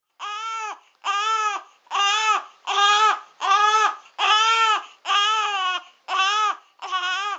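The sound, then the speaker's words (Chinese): A newborn baby cries loudly in nine strong, evenly spaced wails, each a high, harmonic cry separated by short gasping pauses. “个 BB 喊得好大声啊！”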